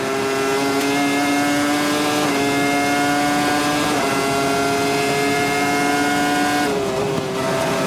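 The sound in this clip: A Formula 1 car's engine screams at high revs in sixth gear through a run of S-curves. A loud, sustained, high-pitched whine holds throughout, with a few slight dips in pitch.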